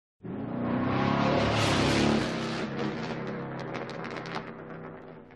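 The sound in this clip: A car speeds away hard in a pursuit, its engine roaring loudly from the outset with a broad, rushing tire and road noise, then easing a little while staying strong until the end.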